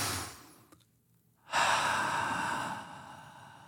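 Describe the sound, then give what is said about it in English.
A big, deep breath taken as a calming group exercise: after a brief near-silence, a loud, breathy rush of air begins and holds steadily for about two seconds before slowly fading, with no talk over it. “let's just take a big, giant, deep breath”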